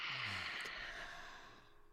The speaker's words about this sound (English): we're going to take a deep breath in. One, two, three, breathe in. Hold and out.